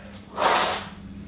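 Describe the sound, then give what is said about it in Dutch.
A hard sniff drawn through the nose, a single breathy rush lasting about half a second, heard alone over a low steady background hum. “Ik ga even mijn neus moeten snuiven.”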